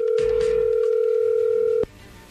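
A telephone line tone sounds on a phone call being dialed. A steady, loud, humming tone holds for nearly two seconds, then cuts off abruptly and leaves only faint line noise.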